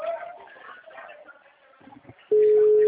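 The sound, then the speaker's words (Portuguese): An unanswered mobile phone call gives a steady, loud mid-pitched ringing tone that starts abruptly after a stretch of faint murmuring. “Eu tô tentando ligar, mas ele não atende.”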